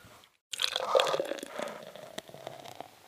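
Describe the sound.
Liquid splashes and pours as a Foley effect, poured all over a person: a wet, gurgling rush starts abruptly after a brief silence, peaks early, then trails off into softer drips and spatters.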